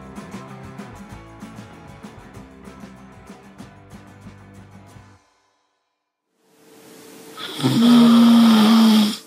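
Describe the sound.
A person snoring: one long, loud, rasping snore with a low droning tone lasting a few seconds, following a stretch of music and a brief pause of silence.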